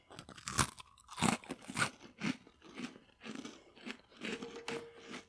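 Crunchy food being chewed in a series of sharp, crackling bites that come in many uneven bursts, moderately loud, with no talking.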